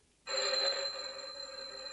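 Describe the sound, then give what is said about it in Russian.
A telephone rings with a bright, sustained, metallic ringing tone that starts abruptly and continues steadily at a fairly low level, with no talk over it. “Это не в передней, это телефон.”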